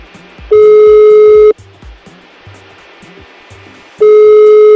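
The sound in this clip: A telephone call rings unanswered, its ringing tone sounding as two loud, steady, mid-pitched beeps of about a second each, separated by several seconds of quiet over a faint low background.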